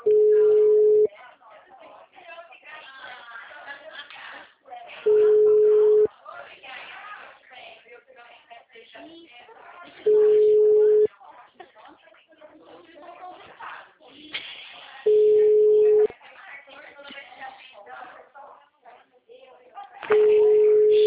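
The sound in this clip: Ringback tone of an outgoing phone call that rings unanswered: five steady, mid-pitched one-second tones spaced evenly about five seconds apart, with voices talking in the gaps between them.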